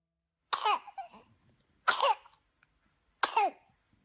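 A baby with whooping cough in a hospital gives three harsh coughing bouts, each a sharp burst followed by rasping, wheezy breaths, separated by short silences.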